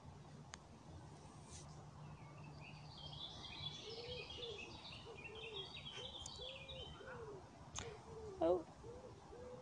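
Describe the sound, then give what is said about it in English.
A wood pigeon coos in soft, low, rhythmic phrases that repeat over the second half. It is faint and sits beneath brief chirps from small birds and quiet outdoor ambience. “You can hear that wood pigeon in the background.”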